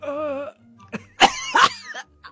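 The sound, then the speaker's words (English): Coughing during a nasal swab: after a brief voiced groan, a couple of harsh, abrupt coughs burst out, fairly loud, with short quiet gaps between them. “I coughed. That was not a sneeze.”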